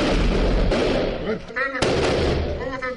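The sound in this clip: Heavy gunfire of high-caliber rounds and grenades during an armed raid on a house, a dense, loud, continuous roar of bursts with a few sharper cracks. Shouting voices sound over the shooting.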